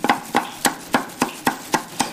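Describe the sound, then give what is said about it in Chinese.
Crab meat being chopped on a board: steady, evenly spaced sharp knocks, roughly four per second, with a crisp attack on each stroke and no voices. “剔出蟹肉，将其剁碎”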